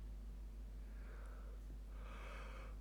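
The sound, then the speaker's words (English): A person lets out a drawn-out, breathy yawn that swells into a louder, airy exhale near the end, over a steady low hum. “Oh, excuse me. Far out. I'm a yawny person.”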